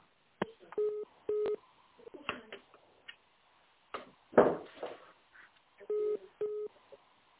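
Short electronic tones on a phone line while a business call is transferred: four steady, flat beeps, two near the start and two near the end, with scattered brief clicks and noises between them.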